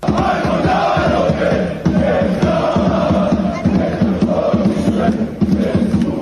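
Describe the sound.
Football fans in Bosnia and Herzegovina cheer and chant before a historic match, a loud continuous roar of many voices with rhythmic pulses of collective chanting throughout.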